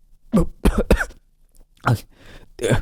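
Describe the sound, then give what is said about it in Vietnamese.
A man coughs and splutters after choking on coffee: a quick run of three harsh coughs, a short pause, then two more loud hacking bursts. “làm cho thằng Ba đang uống cà phê phải ho lên sặc sụa”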